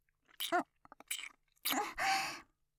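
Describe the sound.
Wet kissing and lip-smacking sounds in a few short bursts, mixed with soft, breathy voiced moans. Quiet, with no spoken words.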